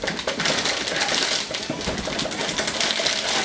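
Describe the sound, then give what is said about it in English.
Steady, dense crinkling and rustling of packaging being unwrapped from an Intel Core 5 processor, continuous and even in loudness throughout. “Now the first stage is to install the processor onto the motherboard, which means we'll unwrap that and then we'll unwrap them.”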